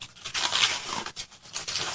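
Tape rips off the packaging of a brand-new product as a continuous loud, scratchy tearing that runs about two seconds, with a few brief dips where the pull pauses and resumes.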